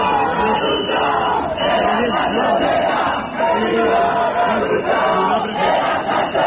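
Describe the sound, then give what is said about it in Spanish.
Protesters at a housing demonstration in Albacete chant together, a loud mass of voices rising and falling in repeated rhythmic phrases. “Es el sonido, como decimos, de esas protestas. La protesta, la más numerosa, tenía lugar en Albacete.”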